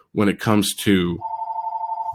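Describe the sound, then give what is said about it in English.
Phone ringing: a steady, bright warbling ring pulses evenly for about a second after a brief burst of talk, and then continues alone. “I apologize, my phone's ringing. Hold on. I should have turned off the ringer.”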